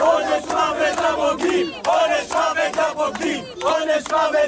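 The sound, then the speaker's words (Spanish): An angry crowd chants death threats outside a family home at night, many voices shouting loud rhythmic phrases in unison, repeated again and again with short gaps between them. “Un grupo de acosadores rodeaba anoche el domicilio familiar de la codirectora de Nazza, de Raquel Sor, y coreaba, como escuchábamos, pena de muerte a los traidores.”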